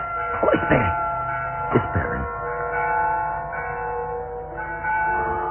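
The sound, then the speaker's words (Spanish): An old church tower bell tolls a death knell, its low ringing tones hanging in a sustained hum, while voices speak briefly over the first strikes. “Toque a difuntos. La campana de la torre está llamando a difuntos.”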